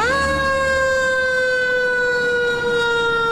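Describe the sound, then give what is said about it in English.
An emergency vehicle siren in New York City blares as a loud, sustained wailing tone that climbs briefly and then eases gently downward in pitch, alone without voices. “want to change the way sirens on emergency vehicles sound in New York City.”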